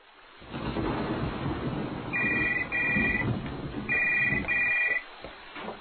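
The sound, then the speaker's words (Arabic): A telephone rings in two double bursts of bright electronic trilling, each pair quick and even, over a constant rushing noise of rain. “في هذه الأثناء رن جرس التليفون”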